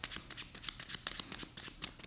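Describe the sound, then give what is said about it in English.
Playing cards being shuffled by hand during a card trick, a rapid crisp fluttering riffle made of many quick papery bursts in a fast, steady rhythm, fairly faint and with no talk. “We just take the cards like this and mix those cards up.”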